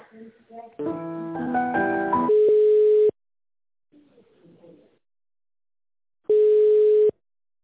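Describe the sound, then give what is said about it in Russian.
Telephone ringback tone while a call is transferred to a finance department: two steady, low beeps, each under a second long, separated by a long pause and preceded by a short burst of melodic tones, with a faint low murmur in the gap. “Я сейчас переключу вас на наш финансовый отдел.”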